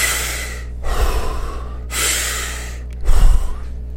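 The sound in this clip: A few deep breaths drawn into the belly at an even two-count pace, each a loud, airy rush separated by short pauses. One ends with a stronger, snorting gust of air. No talking is heard.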